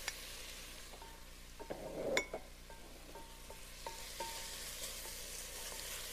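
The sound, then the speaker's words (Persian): Spices sizzle softly in a pan with very little oil: ginger, salt, red pepper, cloves, cardamom and cumin sautéed together. A faint, continuous frying hiss is broken by stirring scrapes and a brief clink. “ما کلن ادویه ها رو که گفتیم خدمتون، زنجبیل چوبه داشتین، نمک، فلفل قرمز، نیخک، هل و زیر سایده، اینا همه رو همزمان با هم به تابه ما اضافه میکنیم و یه تفت کوچولو میدیم.”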